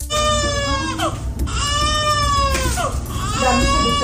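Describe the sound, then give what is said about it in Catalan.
A baby rescued with its mother after 72 hours under earthquake rubble cries loudly in several long, high, strained wails. “Aquest és el so d'un petit miracle. El nadó rescatat era amb la seva mare. Han estat 72 hores sota la runa.”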